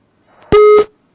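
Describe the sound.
A telephone line disconnects during a live call-in, giving a single short, loud beep: one steady mid-pitched tone lasting about a third of a second, preceded by faint noise and followed by silence.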